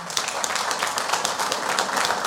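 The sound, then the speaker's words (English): Clapping from a group of people welcoming a child up front, a steady, dense patter of many hands that keeps an even loudness throughout, with no talk over it. “Give him a big clap.”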